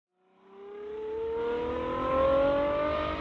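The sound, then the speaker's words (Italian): A Ferrari 812 GTS engine revving: a smooth roar swells in from silence and climbs steadily in pitch, staying loud to the end with no voices. “Wow! Ferrari 812 GTS! Bella, eh?”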